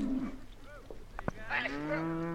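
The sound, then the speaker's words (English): Cattle mooing during a cattle drive at the Black Market Farm near Centennial in southern Wyoming, with a few scattered bovine calls followed by a long, drawn-out, tonal moo that carries through the final second. “True to their name, the Black Market Farm near Centennial in southern Wyoming doesn't do things by the book. For instance, this cattle drive.”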